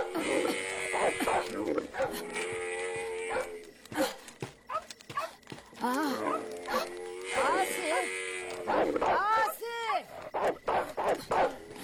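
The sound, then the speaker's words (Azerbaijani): Dogs bark loudly and repeatedly, with many sharp barks in uneven bursts, while people talk at the same time. “Görəsən, bu itlər nə üçün belə hüyürlər?”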